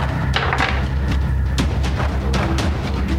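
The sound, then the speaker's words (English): A die rolled on a table during a tabletop role-playing game, heard as a rapid, uneven series of light knocks and clatters over a low background hum. “Oh, 19 on the die.”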